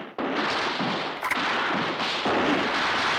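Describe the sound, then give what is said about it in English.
Heavy gunfire as weapons blast through their ammunition, a dense, loud, continuous roar of overlapping shots with no clear gaps and no voices. “They're really blasting. Hell yeah. They're going through the ammo.”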